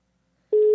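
A telephone busy signal after a dropped call: a steady, loud single tone starts abruptly after half a second of silence and holds until it cuts off.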